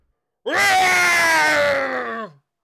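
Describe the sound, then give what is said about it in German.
A terrible scream of a beast outside: one loud, sustained, tonal howl lasting about two seconds, starting abruptly and dropping in pitch as it cuts off. “Da hören wir draußen einen fürchterlichen Schrei.”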